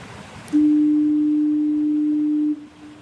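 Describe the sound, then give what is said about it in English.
The Fort Amherst foghorn in Newfoundland sounds one loud, steady, low blast lasting about two seconds. It cuts off sharply and leaves a fainter tail. “Okay, this is a recording of the Fort Amherst foghorn.”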